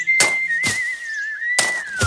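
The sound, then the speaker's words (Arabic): A man whistles a sustained, slightly wavering high tone while cutting grass on a patch of wasteland. Four short, dull thuds from the work sound at an uneven pace beneath the whistle. “وكان يصفر بينما يعمل”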